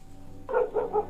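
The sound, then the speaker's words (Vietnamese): A dog barks outside the door at night while the household sleeps. After a moment of near silence come three quick, fairly loud barks in a row, with no voices. “con chó ở ngoài cửa nó cứ sủa nhấm nha nhấm nhặng, chả biết là người hay là trộm.”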